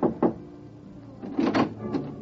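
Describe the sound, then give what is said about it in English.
Knuckles rap on a hotel room door marked 4. A few quick knocks land in two short clusters, with a pause between them. “Your mood right now is for a little private chatter, and you rub your knuckles against the door marked 4.”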